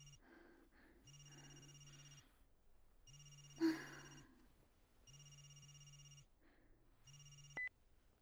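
A telephone rings before being answered: several evenly spaced ring bursts repeat in a steady cycle. A brief snort-like noise cuts through one ring, and the last ring is cut short by a sharp click.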